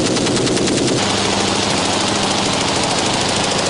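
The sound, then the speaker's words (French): Rapid automatic gunfire in a sustained 'wall of fire' burst, close to 1000 rounds fired in under two minutes. A dense, loud, unbroken roar of shots runs through the whole stretch, with no pause between rounds. “Ils vont tirer près de 1000 cartouches en moins de 2 minutes.”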